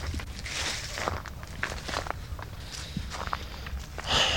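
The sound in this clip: Footsteps of someone walking outside through the streets of Villa Juarez, Aguascalientes, in a steady run of many soft, scuffing steps over constant low background noise.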